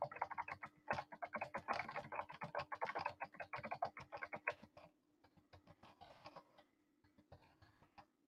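Typing on a computer keyboard: many quick, clicky keystrokes in a fast, irregular rhythm that stay fairly loud at first, then thin out into softer, sparser taps toward the end.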